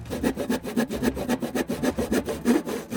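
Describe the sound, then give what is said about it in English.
A handsaw cuts through wood in a rapid, even rhythm of many rasping back-and-forth strokes, with no talk. “Clamp. Clamp. Handsaw. Handsaw.”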